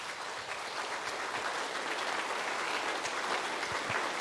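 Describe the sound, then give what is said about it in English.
Applause from an audience welcoming someone to the front of a church gathering, a dense, continuous clatter of many hands at an even level throughout. “Hey, let's just welcome Ryan. Give him a big hand.”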